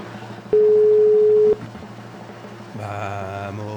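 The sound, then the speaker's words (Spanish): A telephone call tone plays while a number is being dialed: a single flat, steady, mid-pitched tone lasting about a second, over low background noise. “Está marcando.”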